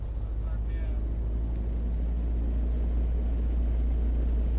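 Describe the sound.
Small aircraft engine running at an airfield before takeoff, a steady deep droning rumble that holds evenly throughout, with muffled voices underneath.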